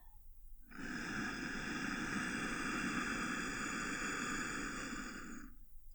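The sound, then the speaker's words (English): A deep inhale during a breathing exercise: a long, steady, airy rush lasting about five seconds, starting after a brief quiet moment and easing off softly at the end. “Let's do another one. Breathe in.”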